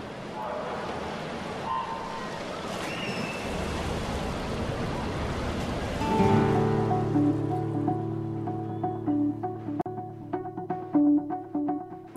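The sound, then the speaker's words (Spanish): Splashing, churning water from a swimming race in an Olympic pool at the Rio Olympics, a broad rushing wash that gives way to steadier tonal sounds, with voices present. “Y un año después de nadar en el Egeo, se tiró una piscina olímpica y así sonó esa carrera.”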